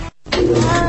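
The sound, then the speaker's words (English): A cat meows from inside a tumbling clothes dryer: a brief noise and a short silence, then a loud, drawn-out, harmonic yowl that holds steady over a low rumble to the end. “Sound familiar? What you're hearing is a cat in a dryer.”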